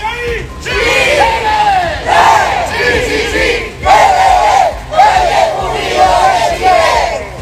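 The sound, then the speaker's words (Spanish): About a hundred Malleco Unido football supporters chant while marching through a city-centre plaza. Loud, rhythmic crowd voices rise in repeated swelling phrases that keep a steady beat throughout. “ahí está parte del sonido ambiente de un centenar de hinchas de Malleco Unido que salieron a marchar durante esta tarde acá en el centro de la ciudad”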